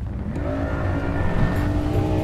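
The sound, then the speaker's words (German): A boat engine running hard as the boat accelerates, giving a loud, continuous roaring drone with steady harmonic tones throughout. “Der Motor springt an und reißt das Boot in Bewegung. Viel zu schnell.”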